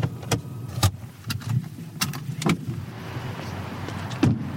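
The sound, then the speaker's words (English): A car pulling in and arriving at Volvo's headquarters, a low engine and road rumble broken by many short sharp clicks and knocks at irregular intervals, with no talk. “So we are just pulling back into Volvo's headquarters and our journey is complete.”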